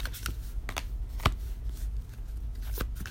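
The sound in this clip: A deck of tarot cards being shuffled gives faint, crisp clicks and soft riffling taps at irregular intervals, with one slightly sharper snap near the middle and no talking.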